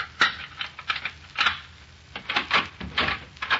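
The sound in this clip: An apartment door being unlocked and opened, heard as a rapid, uneven run of sharp clicks, rattles and light knocks from the lock and handle.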